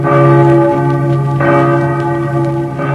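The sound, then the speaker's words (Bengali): A large church bell at the cathedral in Kolkata rings loudly on its own, a rich, sustained metallic tone struck again a few times so the ringing swells and hangs between strikes. “এই যে বেলের আওয়াজ আপনারা শুনছেন, Saint Paul's cathedral চার্চের”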